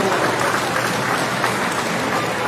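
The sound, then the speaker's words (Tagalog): A church audience applauds during a sermon, a steady, even wash of clapping that carries on throughout. “Pwede ba natin palakpakan ang Lighthouse”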